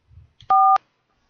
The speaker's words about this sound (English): If you know your party's room number, please dial it now.